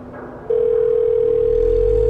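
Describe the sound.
A steady telephone tone sounds while someone calls a shelter's landline. It starts abruptly about half a second in after faint low rumble, then holds one unbroken, even pitch, loud and alone to the end.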